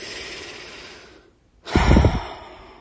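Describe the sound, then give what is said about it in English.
A long deep breath: a drawn-out airy inhale, a brief silent pause, then a fuller, breathier exhale with a low rumble that gradually fades. “So another long, deep breath.”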